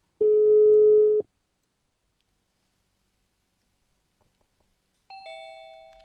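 Telephone tone after a call is hung up: one steady mid-pitched beep lasting about a second, then silence, then a brighter tone that steps down in pitch and fades.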